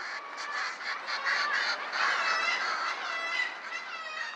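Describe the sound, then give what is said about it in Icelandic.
A colony of seabirds calls, with raucous squawks and honks overlapping into a continuous, fairly faint chorus. The calls stay steady in level, and no voices are heard. “að þó svo fyrir okkur hljómi eins og allir þessir fuglar gargi á nákvæmlega sama hátt, þá eru sjófuglar færir að þekkja rödd og allra minnsta blæbreiðamun í rödd unga sína innan þessa sinfóníu fuglasöngu.”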